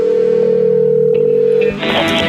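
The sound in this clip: Telephone ringback tone while calling someone: one loud, steady, low-pitched tone that holds for under two seconds, then cuts off as a different, brighter sound briefly takes over.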